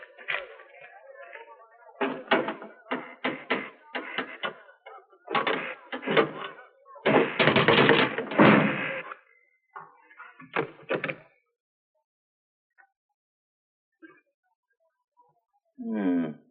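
A locked cabinet is forced open with a pry bar: bursts of straining creaks, scrapes and knocks come in clusters, then fade to a few faint taps before a final scrape.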